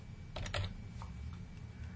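Typing on a computer keyboard while entering text into a software field: a few soft key clicks, with the clearest cluster near the middle, faint over a low steady hum and with no talking.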